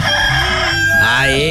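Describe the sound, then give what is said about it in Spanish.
A rooster crows once, a somewhat hoarse and raspy call lasting about a second and a half, loud and strongly harmonic, with its tone shifting as the crow goes on. “Ahí está el gallito, caramba. Este anda medio ronco, este gallo.”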